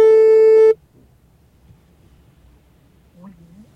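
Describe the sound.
A telephone ringing tone on a call to emergency police sounds once as a loud, steady, single-pitched beep. Near silence follows.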